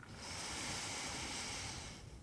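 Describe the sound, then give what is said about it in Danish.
Someone takes a deep inhalation during a yoga session: a single long, soft, airy breath in lasting about two seconds, faint and alone. “Tag en sidste indånding her.”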